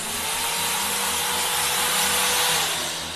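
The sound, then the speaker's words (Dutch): A power drill runs with a continuous loud buzzing whine that holds level throughout and eases slightly at the very end. “dan boor ek jou verstandtanne uit. Met hierdie boor.”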